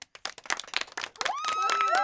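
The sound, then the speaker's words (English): A short burst of quick, sharp hand claps gives a round of applause after a children's stretching exercise. The claps are separate and crisp, and a voice then speaks over the last of them. “Give yourself a round of applause for moving and stretching.”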